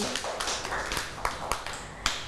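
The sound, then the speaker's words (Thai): Children in a classroom clap for a classmate. The claps are scattered and fairly faint, coming as several sharp, uneven hits rather than a unified burst. “ปรบมือให้น้องเกรซหน่อยค่ะ”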